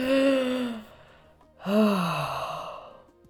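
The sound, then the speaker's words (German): Two long, voiced sighs as someone takes a deep breath, each starting fairly loud and sliding downward in pitch before fading, with a short quiet gap between them. “Wir müssen mal ganz kurz einen tiefen Atemzug nehmen”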